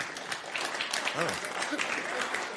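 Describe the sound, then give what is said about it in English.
Audience applause, a soft, continuous wash of clapping with a voice talking over it. “Oh. Look how easy it is to get them to applaud.”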